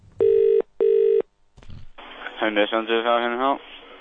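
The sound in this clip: Telephone call being dialled: two steady electronic tones, each about half a second long, then a brief click and a voice speaking.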